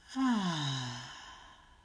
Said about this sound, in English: And our final breath together, let's breathe in and out.